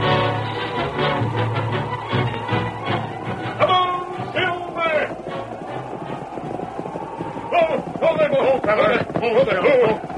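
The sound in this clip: Galloping hooves of the horses Silver and Scout as a sound effect in a western radio drama, a rapid continuous clip-clop beat running under urgent voices.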